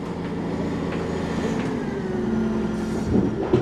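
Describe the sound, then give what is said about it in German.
A small truck in a mine tunnel, hauling out roughly a ton of rock per trip, gives off a steady, low engine rumble that stays at an even loudness, with a few slightly louder bumps near the end. “Ein kleiner LKW fährt auf uns zu. Er schafft das Gestein nach draußen, etwa 1 Tonne pro Fahrt.”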